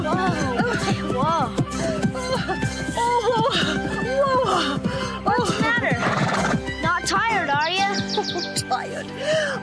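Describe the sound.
A horse neighs and whinnies during horseback riding, with clip-clopping hooves and chirping birds amid a busy, crowded mix of other sound.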